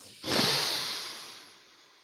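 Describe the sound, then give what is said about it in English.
A deep breath drawn in through the nose, through a deviated septum twice surgically repaired and after adenoid removal: one long, rough, hissing, snorting inhale that starts abruptly and gradually fades over about two seconds. “You have just heard a twice attempted to be repaired deviated septum”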